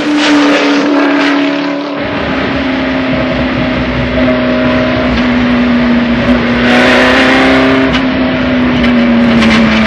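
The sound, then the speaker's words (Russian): Steady engine drone of a car speeding around a bend on a track: a sustained, slightly wavering tone that turns fuller and louder after about two seconds and swells again near the end. “Машина несется по виражу. Еще один вираж.”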